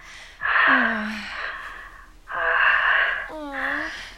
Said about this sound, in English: I love hearing you breathe like this. Like you can barely handle me.